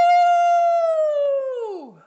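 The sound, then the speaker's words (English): A dog's howl joining a person's howl: one long, loud, steady tone that holds its pitch for well over a second, then slides downward and fades out. “I think my dog just started howling with you a lot.”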